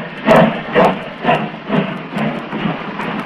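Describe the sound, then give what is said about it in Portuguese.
A steam locomotive chuffs along as it continues its journey, giving a steady rhythm of hissing puffs that repeat about twice a second and ease slightly softer toward the end. “A Maria Fumaça segue viagem.”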